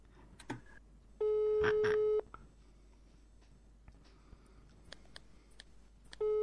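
An outgoing phone call's ringback signal sounds as a steady tone lasting about a second. A few seconds of quiet line hiss with faint clicks follow, then the tone starts again.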